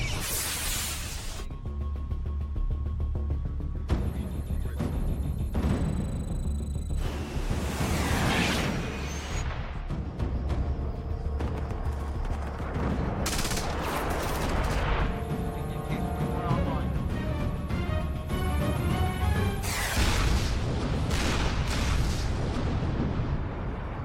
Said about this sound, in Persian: افسر عملیات، روی اون موشکا قفل و بهشون شلیک کن.